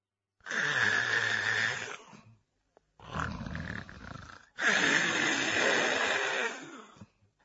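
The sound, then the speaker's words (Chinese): A Chinese storyteller imitates loud snoring likened to surging sea tides with his voice. There are three long, rough, rasping, roaring breaths separated by brief pauses. “脑袋一挨枕头这就打呼噜。程咬金这呼噜打得开绝，声如海潮”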